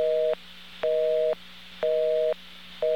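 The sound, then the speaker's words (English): An electronic telephone busy signal from a digital exchange: a steady tone pulsing on and off in an even rhythm of roughly half a second each, repeating clearly with no talk. “Now that is an electronic busy signal, I guess is the best way to describe that. But that's coming from an electronic office or a digital office.”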